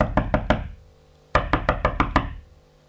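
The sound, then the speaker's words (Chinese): Banging knocks on a locked bathroom door: a quick burst of about three sharp raps, a pause, then a longer, louder run of about six insistent knocks that fades away. “有人推洗手间的门了，推不开就梆梆的敲”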